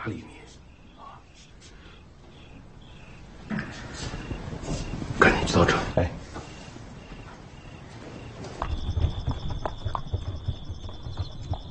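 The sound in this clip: Horse hooves clip-clopping as a horse-drawn cart is hitched up to carry a drunken tavern guest home, a steady run of hoof beats beneath people talking.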